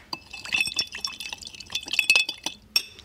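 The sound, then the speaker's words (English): Bitters being stirred into a smoky cocktail in a glass: many quick, light clinks and tinkling scrapes of a spoon against glass with a faint liquid swish, no talk. “Once you've got your bitters in there, give it another little stir.”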